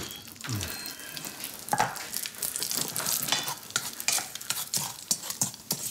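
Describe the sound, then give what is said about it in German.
Bacon sizzles in a pan, cooked to go with scrambled eggs: a steady crackling hiss with frequent sharp pops and some stirring scrapes throughout, no talking. “Ach, auch das noch, der Speck. Ich wollte Rührei und Speck machen.”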